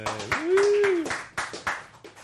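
Audience applause and clapping for an executive chef at an event serving wine, beer and spirits. The clapping is brisk and fairly loud, with scattered sharp hand claps continuing throughout.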